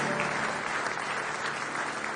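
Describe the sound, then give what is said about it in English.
Congregation clapping hands in praise at a church service celebrating the risen Christ: an even, continuous roar of many claps, dense and fairly soft, sustained without a break. “Give him a hand clap of praise if you love him with all your heart.”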